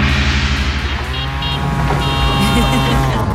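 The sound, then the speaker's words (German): Tuk-tuk auto rickshaw engine running in a loud, steady drone, with a buzzing motor tone and a constant low rumble that holds even throughout without clear revving or pauses. “Wie könnte so ein Tuk-Tuk klingen? Wahrscheinlich so.”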